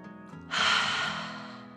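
A deep, slow breath in and out, a brief soft voiced sound followed by a long breathy rush of air that gradually fades away.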